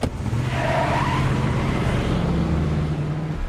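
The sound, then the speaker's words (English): A pickup truck drives off down a road with a steady engine drone under a continuous rush of road and tire noise, holding an even loudness throughout. “Gets out and steps into the shotgun seat of the pickup's cab before they drive off down the road.”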